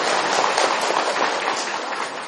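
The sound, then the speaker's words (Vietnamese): An audience claps at a Buddhist talk, giving a steady, dense burst of applause that holds at an even loudness throughout. “Rồi cho chàng pháo tay tặng cô đó.”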